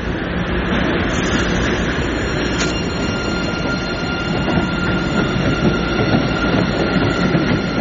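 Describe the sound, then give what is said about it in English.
Train wheels squeal as the train pulls out of a station, a sustained high violin-like whine riding over a steady, loud rumble of rolling cars with faint clatter throughout. “there is also a violin that arises from the train as it leaves the station.”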